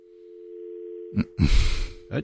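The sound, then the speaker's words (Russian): A steady, low telephone line tone hums throughout a failed call-in to a studio. Short bursts of crackly noise and voice break over it in the second half. “Нет, что-то звоночек не получается у нас. Это самое, что-то в ухах гудит.”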